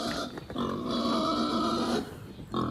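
A newly arrived baby farm pig grunts in its pen. A long, drawn-out nasal grunt is followed after a short pause by a brief second one, with no talking over them.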